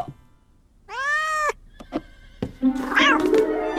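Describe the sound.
A cat meows: one clear, tonal meow, then a few short clicks, then a longer, rougher, wavering cry at the end. No people talk.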